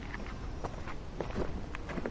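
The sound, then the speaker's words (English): Footsteps walking over rocks on a rooty hiking trail: soft, scuffing steps in an uneven rhythm, faint against a steady background noise. “I find these rocks are easier just to walk on instead of trying to get around everything.”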